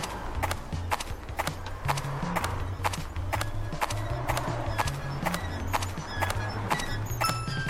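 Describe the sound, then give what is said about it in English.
Footsteps walk on gravel beside a street as a regular series of many crunching steps, with a low melodic tune playing beneath them. “There we go, now I'm walking on some gravel by the street.”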